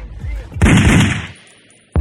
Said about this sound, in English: Code red. Officer down. 29th Street and Florin Road. Gunshot wounds to the face.